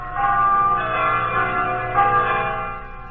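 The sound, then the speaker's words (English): Church bells peal on a Sunday, several bells ringing together in a continuous, blended wash of resonant tones, steady and fairly loud with no voices. “Freedom of religion. That every Sunday peals out, singing in a chorus of church bells throughout the land.”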